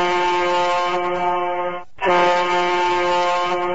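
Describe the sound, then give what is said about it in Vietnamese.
A ship's whistle sounds twice: two loud, sustained, steady harmonic blasts split by a brief gap, the second slightly louder than the first, with no voices. “nhưng liền theo đó hai tiếng súp lê rền vang”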